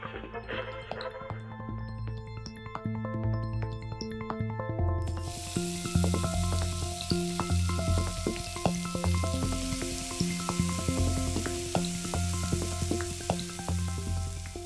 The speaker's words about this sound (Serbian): Nedeljom svi u ulici meso prže.